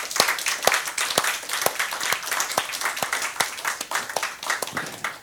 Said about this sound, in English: Shall we just give them a hand?